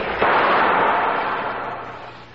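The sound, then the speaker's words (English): A pistol gunshot fired toward an unseen creature: one sharp crack followed by a loud, broad rush of noise that slowly fades over the next two seconds, with no talk. “You have the pistol. Shoot at it.”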